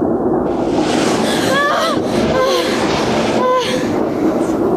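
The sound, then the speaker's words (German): An amusement park ride train rattles along on a dark-ride track past spooky scenes, a continuous loud rumbling clatter with a few brief high metallic squeals rising above it. “Die Bahn zuckelte an Schlossgespenstern vorbei, durchquerte ein Drachenland, in dem Vulkane und Monster um die Wette qualmten, und ratterte schließlich zurück in den Bahnhof.”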